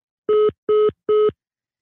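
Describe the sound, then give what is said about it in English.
A telephone line tone follows a caller hanging up: three identical short beeps, evenly spaced, each a steady mid pitch, with silence between and nothing else. “Okay. The caller has hung up.”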